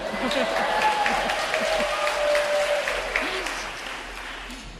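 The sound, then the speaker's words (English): Audience applause at a talk: a dense, steady wash of many hands clapping that stays loud for the whole stretch, with a faint cheer or voice rising through it. “But you could clap again, it's okay.”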